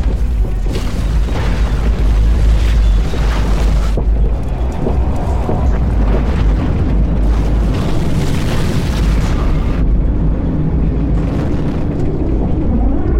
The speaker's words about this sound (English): what is that out there? It's coming at us really fast. Looks like a shockwave! Everybody, get behind the console now!